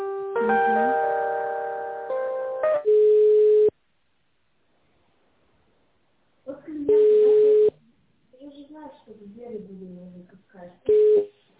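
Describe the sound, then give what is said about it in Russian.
Telephone tones play while a call is put on transfer: harmonic ringing tones first, then three steady, mid-pitched beeps separated by silence, with a voice talking between the later beeps. “Минуточку, сейчас вас переведу.”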